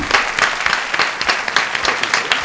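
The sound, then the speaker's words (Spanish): Applause for a guest arriving in a radio studio: a short, loud burst of clapping from a few people, with individual claps landing in a fairly regular rhythm. “Un aplauso para Alfonso, sí, por favor.”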